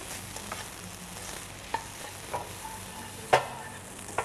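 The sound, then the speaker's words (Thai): Stir-frying fried rice with halved cherry tomatoes in a pan: a steady low sizzle with a few sharp scraping strokes of the spatula spaced irregularly, one louder scrape near the end, no voices. “ผัดให้มีความหอมขึ้นนิดนึงนะแล้วก็ปรุงรสด้วยซอสพริกนะคะ”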